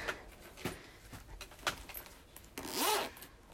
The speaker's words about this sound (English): I'm opening up a purse to draw on myself.